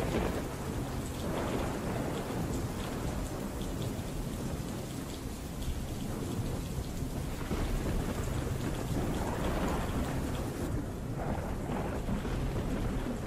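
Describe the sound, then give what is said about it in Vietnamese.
Thunder rumbles low beneath a heavy, steady downpour of rain. The storm noise stays loud and continuous throughout, with no voices. “Trên bầu trời loáng thoáng vang lên tiếng sấm động đến đình tai nhức óc.”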